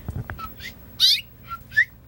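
Mother bird calling near her nest: a few short, high, whistled chirps with brief gaps, one in the middle and the last one louder, over a faint low background rumble.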